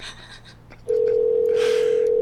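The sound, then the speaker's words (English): A telephone dial tone sounds while someone places a call to a woman's husband: a steady, unbroken single tone sets in after a short stretch of low background noise and holds level to the end. “Oh, let's get her back in here. We should talk to Barry, her husband. Let's get Barry on the phone.”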